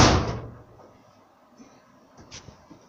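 A door is shut with a single loud slam that quickly dies away. Near silence follows, broken only by a few faint small knocks.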